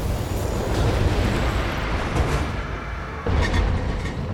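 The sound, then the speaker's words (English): A building explodes under weapons fire in a video game, a loud, sustained roaring rumble that churns steadily, with a fresh blast surging in near the end. “Target building destroyed.”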